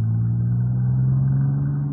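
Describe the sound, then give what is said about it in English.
Low, steady engine drone of a car on a highway, a constant rumble with a humming tone that holds level for about two seconds. “Look out for that car. I see it. It's a white convertible, just like Grace's.”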